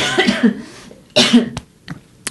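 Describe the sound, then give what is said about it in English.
Coughing: a few harsh bursts, with a strong cough in the middle followed by fainter, shorter ones. “I've got a cough.”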